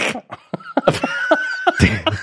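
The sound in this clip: A person makes a string of harsh, guttural throat-clearing sounds, several rough bursts in a row, with a voice imitating the throat-clearing noise.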